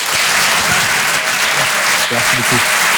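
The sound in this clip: Comedy club audience applause greeting a comedian, a dense, steady wash of loud clapping with faint voices beneath it.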